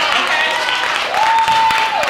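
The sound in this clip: Family cheering and applauding at a ceremony: steady, dense clapping and crowd noise with voices mixed in, plus a sustained tone that holds briefly near the end.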